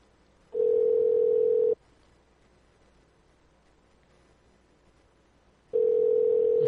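A telephone dial tone sounds before a call is placed: a steady, loud, unbroken hum in two stretches, separated by a long quiet gap filled only with faint hiss.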